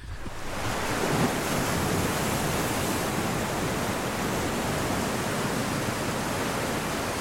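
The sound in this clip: Sea waves and surf at open sea make a steady, even rushing roar that fills the whole span. It builds in over the first moment, and no separate breaking waves stand out.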